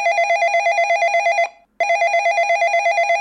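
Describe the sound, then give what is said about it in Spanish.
Telephone ringing with an electronic trilling tone: a steady, warbling high-pitched ring, then a brief pause, then the ring resumes just as loudly. No voices. “¡Una llamada!”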